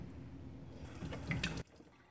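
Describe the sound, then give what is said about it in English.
Tap water runs steadily while a sprig of fresh sage is rinsed under it, a soft, even splashing that cuts off abruptly near the end as the faucet shuts. “And I'm taking a sprig out. I'm going to rinse it off.”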